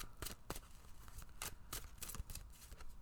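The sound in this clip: Tarot cards are shuffled and drawn, producing many quick, crisp papery riffles and flicks in an uneven rhythm with no talking.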